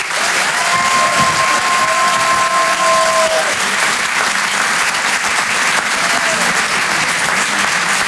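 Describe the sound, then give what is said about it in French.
An audience applauds and cheers as a performer is introduced at a live comedy show. Dense, steady clapping fills the whole stretch at an even loudness, with crowd noise mixed in. “Faites un maximum de bruit, s'il vous plaît, pour Antoine Donneau.”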